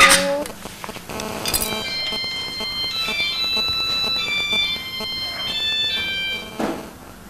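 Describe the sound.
A mobile phone rings with a bright electronic ringtone of beeping tones, fairly loud and melodic, with a few knocks and clatters at the start and near the end.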